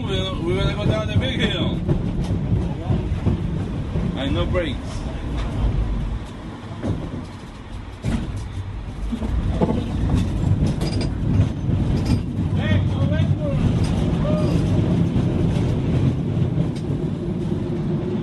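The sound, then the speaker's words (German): A street cable car in a hilly city rumbles and clatters along its track in a steady mechanical din, with a few bright, ringing tones standing out at moments. “In diesen Straßenseilbahnen, deren stürmisches Klingeln überall in der hügeligen Stadt zu hören ist, sitzt man quer zur Fahrtrichtung auf langen Holzbänken”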